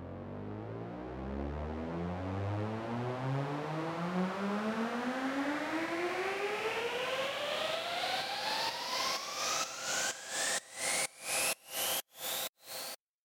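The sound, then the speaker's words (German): A synth riser in a music production: a noisy, harmonically rich sweep climbs steadily in pitch for about thirteen seconds, then breaks into a quickening stutter of chopped, gated bursts at the end. “Und damit das Ganze noch ein bisschen mehr unterstützt wird, gibt es jetzt noch einen Riser, der klingt so.”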